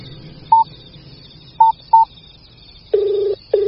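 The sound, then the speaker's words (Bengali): A phone is dialing a number: three short, evenly pitched keypad beeps, followed by a longer, lower steady tone that breaks off briefly and then starts again. “তারপর ঠাকুর ঘরে গিয়ে phone on করল, লোকটার নাম্বারে phone করল।”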